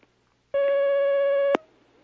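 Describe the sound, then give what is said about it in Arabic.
A telephone tone sounds as a call comes in on the line. It is one steady, buzzing tone lasting about a second and ends with a sharp click, followed by near silence. “معنا مكالمة على الخط الآن.”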